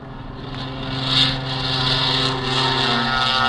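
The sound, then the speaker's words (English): A military aircraft takes off down the runway, its engines producing a broad, continuous droning roar that swells briefly, then holds at a steady level. “Now Clark of Kentucky is taking his flight down the runway.”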